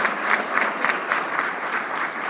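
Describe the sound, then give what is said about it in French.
Applause from a church audience acclaiming the Lord during a worship service: dense, steady clapping with soft rhythmic pulses that stays loud and even throughout. “On peut acclamer le Seigneur pour cette action de grâce. Acclamons encore plus fort le Seigneur Jésus.”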